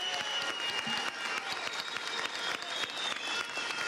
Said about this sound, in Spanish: Un aplauso para este hombre y todo el apoyo del pueblo venezolano.